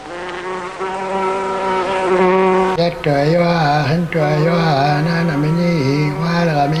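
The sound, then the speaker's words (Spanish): Flies buzzing: a loud, continuous nasal drone that holds steady at first, then wavers and wobbles in pitch through the second half. “Las moscas.”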